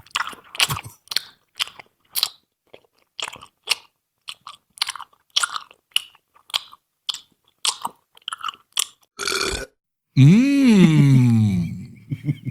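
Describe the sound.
A man crunches and chews a lemon snack, making many short, crisp bites in a row. A brief noisy burst follows, then a loud, wavering vocal moan that rises and falls in pitch.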